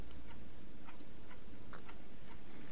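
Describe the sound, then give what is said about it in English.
Clocks ticking in a radio studio: light, crisp ticks recur unevenly throughout over a steady background hiss, with no one speaking. “them clocks add a bit of comedy to this show, because you can hear them in the background clicking away”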